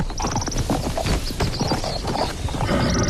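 Hoofbeats of a horse being mounted and ridden: a loud, dense run of many clip-clopping strikes and scuffs continues throughout, with no talk.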